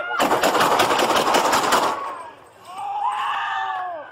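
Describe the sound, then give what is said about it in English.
A Hartford police officer fires nine rounds in a rapid, loud volley captured on body cam footage, with the shots packed closely together over about two seconds. A voice follows once the shooting stops. “the Connecticut Office of Inspector General released body cam footage of a Hartford police officer firing 9 rounds at a 55-year-old bad guy carrying a knife on Friday morning.”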